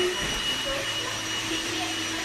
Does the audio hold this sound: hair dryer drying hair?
yes